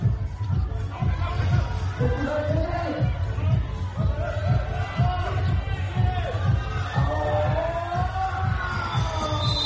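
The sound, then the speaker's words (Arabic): Crowd noise at a sports match between the Korean and Singaporean national teams: a sustained, dense roar of cheering and mixed voices that stays loud from start to finish. “ردت فعل الجمهور أيضا.”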